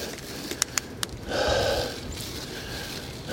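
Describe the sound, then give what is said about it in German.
A single heavy, gasping breath, a breathy rush lasting under a second, preceded by a few faint, sharp clicks. “Viel Geschnaufe, Keuche, Kurzatmigkeit und andere Lungengeräusche.”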